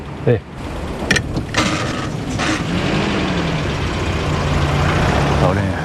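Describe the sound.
A car drives off: the engine drones steadily and rises over several seconds, with a few sharp mechanical knocks and clunks early on.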